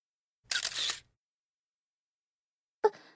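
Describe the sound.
Camera shutter firing during a close-up photo shoot: a short mechanical burst of about half a second, then silence and one sharp single click at the end, with no talking.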